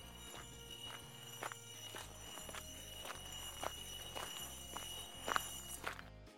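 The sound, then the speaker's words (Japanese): Steady footsteps of a man walking closer while carrying a very large tree, many heavy, evenly spaced steps thudding over a constant low rumble, with no talking. “すごく大きな木を持ったおじさんがこっちに歩いてくる。”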